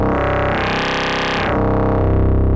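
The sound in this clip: A dry synthesizer signal runs through a Cursus alternate-firmware module on a Ruina Versio: one steady, buzzy harmonic tone that brightens and swells for about a second, then turns darker and duller.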